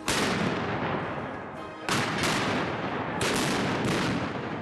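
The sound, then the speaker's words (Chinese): 17th-century and American Revolutionary War cannons fire at a historical military event in Virginia, a few loud booming blasts whose roar trails into a sustained rumble between shots. “十七世纪的火炮， 开火！ 还有美国独立战争时期的火炮， 开火！”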